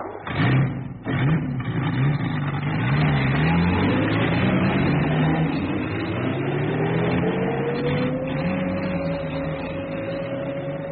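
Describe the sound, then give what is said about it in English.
Engines of a convoy of vehicles moving out of Naivasha at 2:30 in the morning in 1955. A continuous loud motor rumble wavers at first, then climbs slowly and steadily in pitch as the vehicles pull away. “At 2:30 the following morning, November the 11th, 1955, a convoy of vehicles moved out of Naivasha.”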